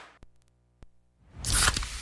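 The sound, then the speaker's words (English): Pepsi Zero Sugar cola is opened and poured: two small sharp clicks, then a loud, bright fizzing rush of carbonated pouring that swells and carries on to the end. “You hear that? That's the sound of Pepsi Zero Sugar, the better tasting, more refreshing Zero Sugar Cola. Listen to that endless pour.”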